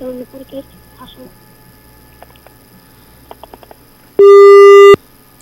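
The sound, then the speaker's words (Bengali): A phone line's disconnect tone sounds after a call is cut off: one steady, bright electronic beep lasting under a second. It comes after a stretch of faint, muffled sounds. “আবার কেটেও দিল ফোনটা।”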